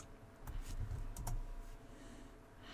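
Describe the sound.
A few faint, quick keystrokes are typed on a computer keyboard as text is entered, scattered over a soft steady background hum.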